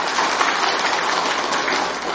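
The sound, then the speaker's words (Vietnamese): Audience applause during a Vietnamese Buddhist dharma talk: many hands clapping at once in a steady, hiss-like wash of sound that stays loud and even throughout. “tốt đấy, giỏi đấy, cho một tràng pháo tay đi.”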